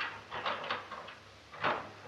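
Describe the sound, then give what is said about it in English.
A door being unlocked: a cluster of rattling lock clicks, then a pause and a second, louder clunk, with no talk. “Wait till I unlock this door.”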